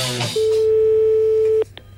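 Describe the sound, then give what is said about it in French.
A telephone ringing tone plays while listeners are being called: one steady, mid-pitched continuous tone lasting about a second and a quarter, loud and clear, followed by brief clicks on the line. “je vous rappelle, chers auditeurs, que nous appelons deux personnes. Actuellement, nous sommes en train d'appeler Monsieur Villadar, Jean, ainsi que Monsieur Villosset, Célestin”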